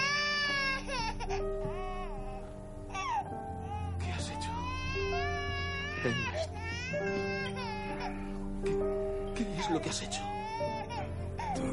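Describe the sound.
A baby cries inside a house, giving high, wavering wails that rise and break again and again over steady sustained tones, with brief whimpering gaps between the sobs.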